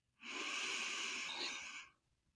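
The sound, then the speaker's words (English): A deep, slow breath in, taken during a guided group breathing exercise: a single smooth, airy inhale lasting nearly two seconds, starting and ending abruptly against near silence. “So let's take a deep breath in for four seconds”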